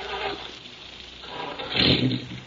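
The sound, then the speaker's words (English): A car engine starts after a stuck self-starter is fixed, with a low rumble that swells into a louder roar near the end. “Self-starter was stuck. I think I got it fixed now. I'll try it.”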